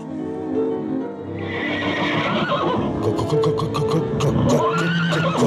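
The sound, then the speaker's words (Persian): Zorro's horse Tornado lets out a loud, long, wavering whinny, joined in the second half by rapid, rhythmic hoof clops. “زود باش عجله کن اسبم تورنادو رو زود بیار”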